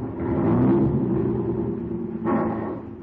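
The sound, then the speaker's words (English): Taxi cab engine running as a radio drama sound effect: a steady low rumble with a droning hum that holds throughout and briefly surges again near the end, with no voices. “You know, this is a radio cab. I not only take you where you want to go, but I give you entertainment besides.”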